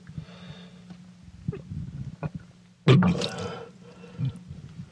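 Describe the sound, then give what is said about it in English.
Vomiting into a sink: a sudden heavy gush and splash of liquid, trailing into smaller spatters, with softer gagging noises and a low hum before it. “And there goes my dinner. Back into the sink.”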